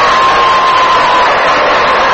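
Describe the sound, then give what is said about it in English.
A loud crowd ovation for Stan Musial at a Brooklyn ballpark, a sustained, even roar of cheering and applause with a faint steady tone running through the first half. “Sam Musial being announced to the crowd and gets an ovation.”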